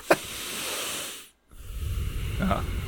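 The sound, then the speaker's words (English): Heavy, forceful breathing through the nose comes as two long, loud, hissing breaths separated by a brief silent pause. “I breathe really hard through my nose, like I do regularly, anyways. So that's all you hear.”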